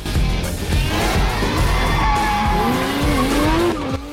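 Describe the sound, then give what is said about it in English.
A restored Ford Mustang, newly fitted with a carburetor, roars along a winding mountain road on a test drive, its tires squealing in wavering, shifting tones over a continuous loud engine. “The now roadworthy Mustang is taken for a test drive in the mountains.”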